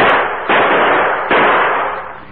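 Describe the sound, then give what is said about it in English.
Gunshots fired at a target during marksmanship practice: two sharp, loud reports, each followed by a long, noisy decay that barely fades before the next. “That's good shooting, Drew.”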